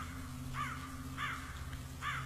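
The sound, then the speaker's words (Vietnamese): Black crows cawing from high tree branches at night: three harsh, evenly spaced caws over a low, steady hum. “mấy con quạ đen thình lình vỗ cánh bay vút, kêu lên những tiếng thê thiết”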